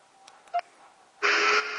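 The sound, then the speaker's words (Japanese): A telephone call is dialed: a few short keypad beeps are followed by a louder, sustained tone. “あの方にお電話させていただきたいと思います。少々お待ちください。今かけてますね。”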